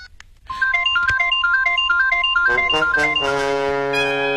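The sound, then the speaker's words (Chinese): Mobile phone ringtone sounding when its number is dialled: after a brief quiet start, a loud electronic melody of bright, repeated short notes over a held tone, with fuller sustained chords entering toward the end. “乔丽娜用卜小韵的手机拨打自己的手机号码，显示屏显示的正是卜镇长告诉她的卜小韵的手机号，显然这部手机就是卜小韵的。”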